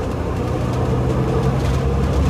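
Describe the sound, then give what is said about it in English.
Continuous low engine drone and road rumble while riding a city bus on the number six Greenboro route, steady and even with no talk. “almost there, about 5 minutes away, on the bus, the six Greenboro”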